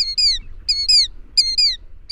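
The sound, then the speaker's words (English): Killdeer calling: shrill, high, falling notes in quick pairs, repeated in about four loud bursts with short gaps, alone over a faint low rumble. “the northern killdeer fly south right over the region where other killdeer reside year-round”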